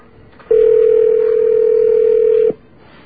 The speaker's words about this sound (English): That's the number that we were plagued with, so let's call that. Now, I'll bet they're not open now, but we can still wander through their voicemail.